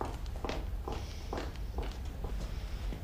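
Footsteps of a mother leaving home after saying goodbye: several steady, evenly spaced steps with a firm, dull thud, walking at a regular pace with no talking over them.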